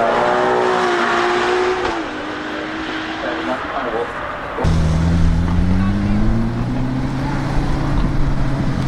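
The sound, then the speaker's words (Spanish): A Ferrari engine drones loudly in a rich, harmonic tone. It dips briefly midway, then comes back stronger with its pitch climbing as it revs. “vamos a cambiar de motor un poco de forma radical de ese sonido de este Ferrari hermoso”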